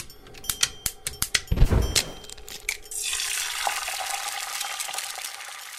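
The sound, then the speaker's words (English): An egg is cracked and dropped into a hot pan on the stove: a few sharp taps and knocks come first, then a bright, steady sizzle of frying carries on to the end. “it usually doesn't involve turning on the stove, cracking an egg, and dropping that egg into a hot pan”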